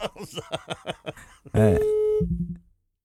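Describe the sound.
A telephone busy tone sounds after the caller hangs up: a steady, bright electronic tone cuts in after a few seconds of talk, then gives way to a shorter, lower tone that fades out.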